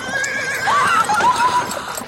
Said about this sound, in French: On n'arrête pas un cheval au trot comme ça, ma chère!